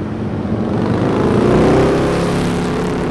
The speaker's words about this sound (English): gave me a thumbs up and pulled back on the throttle